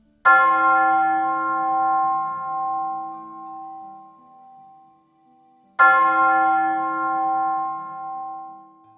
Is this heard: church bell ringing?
yes